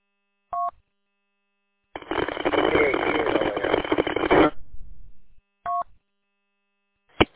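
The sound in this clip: Telephone dialing tones sound as two short, clear beeps separated by a long burst of loud hissing static, with a sharp click at the very end.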